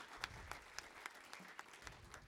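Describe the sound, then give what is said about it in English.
An audience at an Awana youth gathering gives a round of applause. The clapping is soft and steady, with a regular rhythmic beat of sharper claps running through it. “So let's give him another round of applause.”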